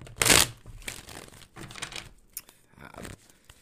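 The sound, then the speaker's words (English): Someone shuffles a deck of playing cards. A brisk riffling burst is followed by softer rustles and light card flicks, all fairly quiet. “Let's get another good shuffle.”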